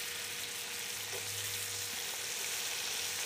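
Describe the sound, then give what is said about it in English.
A pork medallion sizzles fat side down as it browns in a pan, giving a steady, even frying hiss that stays constant throughout without talk. “See, this is really going now. So you can just see it's, I put the fat side down. You can see the browning now.”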